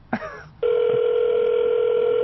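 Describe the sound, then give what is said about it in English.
A telephone call is placed before reaching voicemail, giving a steady, unbroken electronic line tone that follows a brief sound at the start. “We're getting ready to leave Bernie a really mean Snakes voicemail.”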